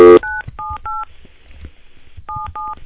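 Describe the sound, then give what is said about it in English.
Touch-tone telephone dialing: five clear two-tone DTMF beeps, three in quick succession and then two more after a pause, over a low background hum. “Let me dial this number.”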